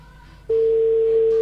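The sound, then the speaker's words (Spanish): A telephone line tone plays while a call is being placed, one loud, steady, unbroken pitch that starts abruptly after a short stretch of low hum and holds to the end. “Vamos a intentar una vez más. A ver si entra la llamada.”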